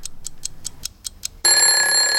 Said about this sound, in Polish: Pobudka. Muzyczny budzik.